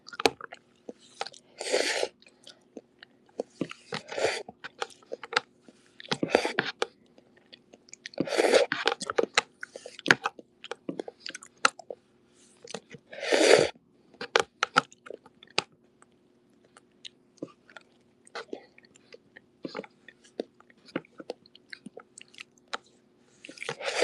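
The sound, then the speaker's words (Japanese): Chewing and crunching while eating garlic cloves floating in a dish, with many irregular crisp bites and wet mouth sounds, mostly faint with occasional louder crunches and no talk. “ニンニクが無限に浮かんでて、今頑張ってそれを食べてるんですけど、”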